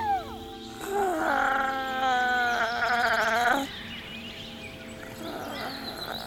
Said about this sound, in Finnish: Varhain aamulla lintujen viestinvaihtoa, vähän niin kuin koko maailmankaikkeus olisi yhtä aikaa läsnä.